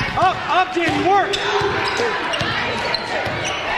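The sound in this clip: Basketball dribbled during a girls' game between Rifle and Battle Mountain, several firm bounces thumping against the court floor under voices and crowd noise.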